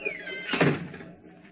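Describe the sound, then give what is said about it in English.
A door shuts in a radio mystery drama, giving a single dull thud that fades quickly and stands alone. “Shut the door behind you.”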